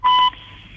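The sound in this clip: One short, bright electronic beep from a telephone keypad while dialing, loud and clean, lasting about a quarter second.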